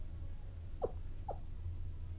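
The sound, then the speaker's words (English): A domesticated fox whines and whimpers like a dog: two brief, high, faint whimpers in quick succession over a steady low hum. “They wagged their tails, whined, whimpered, and would even lick the humans.”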